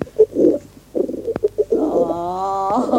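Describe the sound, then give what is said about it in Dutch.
A pigeon coos in a few low, throaty, burbling bursts, fairly loud and alone, then holds a steadier, drawn-out tone. “mag ik u hierbij uw eigen lieve duif aanbieden?”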